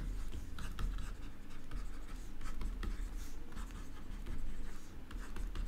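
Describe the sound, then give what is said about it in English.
Handwriting with a pen or pencil: faint, dry scratching strokes come in many quick, irregular bursts throughout, with no talking. “I'll write down the answer right here.”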